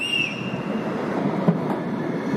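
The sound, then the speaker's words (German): A city tram in Munich rolls past with a steady rumbling roar. A brief high wheel squeal comes at the start and a single sharp click comes midway. “Drum nehmen viele lieber die Straßenbahn, zum Beispiel die 18er in Richtung Süden, nach Giesing.”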